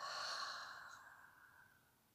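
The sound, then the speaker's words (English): A deep cleansing breath let out through the open mouth, one soft, breathy exhale that fades gradually over about two seconds. “Invite another deep cleansing breath into the body. Open the mouth, exhale, let go.”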